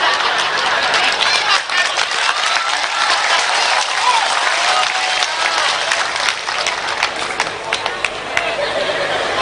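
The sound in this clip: Audience applause, a loud, sustained wash of clapping with crowd chatter mixed in, holding steady from start to finish.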